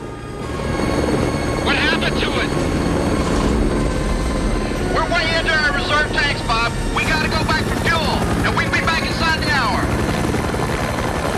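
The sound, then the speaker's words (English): Helicopter flying during a search: a loud, continuous rotor and engine drone, with voices breaking in and out over it. “In the helicopter, Bob and his co-pilot continue the search.”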